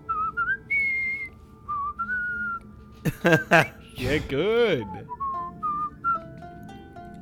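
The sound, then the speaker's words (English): Someone whistles the Star Trek theme, a melody of held and stepping notes, broken midway by louder sweeping, voice-like sounds. Brief talk is heard. “whatever the whistle theme is. Star Trek. Is that what the flute sound is?”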